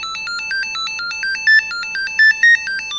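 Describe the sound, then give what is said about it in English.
A Kensington Proximo key fob's alert tone plays as a loud electronic melody of many quick, bright beeps that alternate between a few pitches in a repeating pattern, heard alone. “Now, if you want to find the key fob that you've got in your pocket that is linked to the phone, that will sound like this.”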